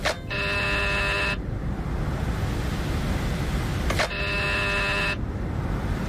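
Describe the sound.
A doorbell at number 72 Calle Princesa buzzes twice, each time a loud, harsh electric drone lasting about a second. A few seconds of steady background hiss separate the two rings.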